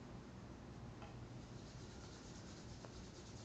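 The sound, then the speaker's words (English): Hands rubbing together to make warmth in the palms: a continuous, even, soft friction hiss that holds steady throughout without breaks. “Bring your hands together. Rub your hands so you feel a little heat.”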